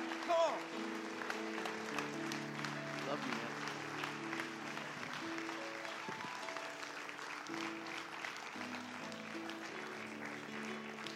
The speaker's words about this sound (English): Put your hands together. Welcome with me Pastor Anthony as he comes and shares the word.